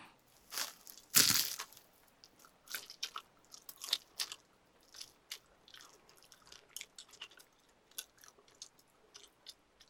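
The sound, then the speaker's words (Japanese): Close chewing of meat, with many moist, crunchy bites and squelches in an irregular rhythm, one loud crunch standing out near the start. The rest are shorter, softer chews scattered throughout. “食べても、ずっと肉が終わらないよ。”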